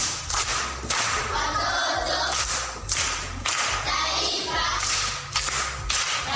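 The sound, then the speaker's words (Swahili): Rhythmic group clapping from seventh-grade primary school pupils, delivered in loud, regular bursts with short gaps, like a patterned class cheer. “Makofi kwa mjomba.”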